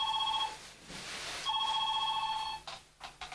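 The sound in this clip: A telephone ringing in two bursts of bright, steady trilling tone separated by a short pause, with a few faint knocks after the second ring.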